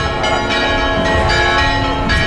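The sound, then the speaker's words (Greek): Church bells ring joyfully at a religious festival where crowds wait to pass beneath a miraculous icon of the Virgin Mary. Loud, dense, overlapping metallic tones sustain steadily without pause. “Εμβατήρια πεανίζουν, οι καμπάνες χτυπούν χαρμόσυνα”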